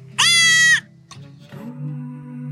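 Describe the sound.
A goat at a goat yoga class gives one loud, wavering, high-pitched bleat. Quieter low murmuring sounds follow it.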